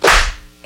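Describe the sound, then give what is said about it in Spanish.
A single loud whip crack snaps out with a sharp onset and a quick decaying swish. “El sonido misterioso es un chicotazo.”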